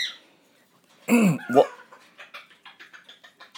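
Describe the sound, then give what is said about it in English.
A pet bird makes little noises: a couple of loud, harsh squawks, then a quick, rhythmic run of many short, soft clucking chirps. “You're a big bird making big little noises.”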